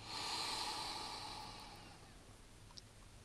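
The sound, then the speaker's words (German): A deep breath drawn in during a breathing meditation: a soft, airy inhale, faint and alone, that swells early and then slowly fades away. “Zweite Mal, wir machen nochmal ein paar. Einatmen.”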